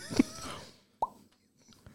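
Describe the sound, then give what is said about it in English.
A bottle is loudly uncorked, giving a single sharp hollow pop after a brief earlier sound, then near silence. “Loud Uncork. I want to hear this.”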